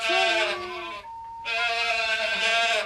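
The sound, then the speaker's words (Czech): A goat bleats twice with loud, wavering, strongly harmonic cries separated by a short pause. The second cry runs a little longer than the first, and no talk is heard. “Au! Koza, na! Koza, na!”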